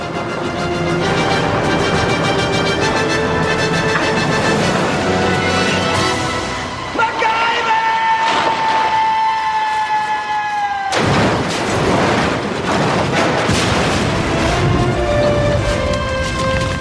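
A car driven over the edge of a cliff explodes on impact: a loud, continuous booming roar layered with sustained tones, broken by a sharp burst partway through before the heavy rumble carries on.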